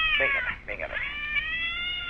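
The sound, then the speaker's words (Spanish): A cat gives a long, drawn-out meow, a steady, high, wavering wail held for about two seconds, with some talk mixed in near the start. “Otra vez el gato.”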